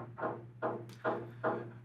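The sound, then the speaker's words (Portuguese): Someone bangs on the wall from a neighbouring apartment. Four dull, muffled thumps come at even intervals over a low, steady hum. “Malditos! Estão batendo na minha parede. Morar em prédio, vantagens e desvantagens.”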